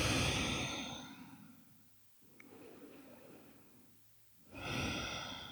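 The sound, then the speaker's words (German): A slow, deep breath is drawn in and let out, as in a calm guided breathing exercise. Two soft, airy swells of breath are separated by a quieter pause, with no talking. “Tief ein- und ausatmen.”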